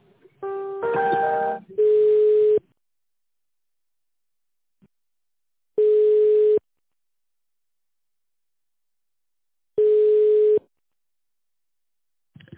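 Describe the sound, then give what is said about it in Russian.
Telephone tones play while a call is transferred: a short multi-note electronic beep, then three long steady beeps of one mid-pitched tone, each repeating about four seconds after the last with silence between. “Я вас сейчас переадресую с договорным отделом.”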